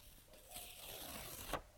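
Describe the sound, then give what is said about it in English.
A sticky post-it note peeled sideways off its pad gives a faint, papery zip-like rip lasting about a second, ending in a brief crisp snap, heard alone. “Instead of grabbing a post-it by the bottom edge and peeling up like this, grab it from the side and peel sideways like this.”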